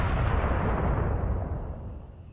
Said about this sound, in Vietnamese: Tiếng nổ này vang lên, ngay cả hư không cũng trực tiếp sụp đổ